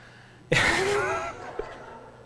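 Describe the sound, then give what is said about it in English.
An audience groans together in one sudden, loud collective vocal sound that swells at once and then tapers away within about a second, followed by a faint brief vocal sound. “I heard maybe two people that I think like gym class, and everybody else, there was a groan there.”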